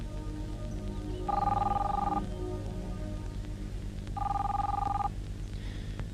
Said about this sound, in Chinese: 你不想接电话？